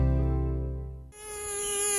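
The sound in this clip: Mosquito buzzing during a mosquito plague: a steady, harmonic insect drone that is low in the first half, then dips and returns as a higher, thinner whine.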